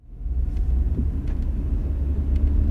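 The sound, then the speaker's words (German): A new model of car driving: a steady, low engine and road rumble at constant loudness, with faint higher clicks now and then and no voices. “Oh, das Auto fährt sich wirklich sehr gut.”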